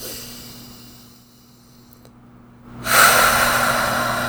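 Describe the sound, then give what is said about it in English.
A single deep, steady, airy breath during a guided emotional tapping exercise, starting abruptly after a near-silent pause and lasting to the end. “Deep breath.”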